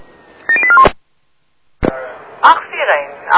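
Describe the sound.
A quick run of telephone dialing tones, a few short beeps at shifting pitches, comes before a fire-service radio call, followed by a silent gap, a sharp click and radio voices talking.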